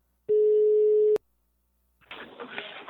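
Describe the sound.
One steady telephone ringing tone about a second long cuts off sharply as a call is placed, and after a short silence a voice starts speaking.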